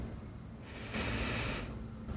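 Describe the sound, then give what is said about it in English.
A single deep breath through the nose during a sleep meditation, heard as a soft, airy swell of breath with no talk. “Take a few deep breaths, using only your nose, in”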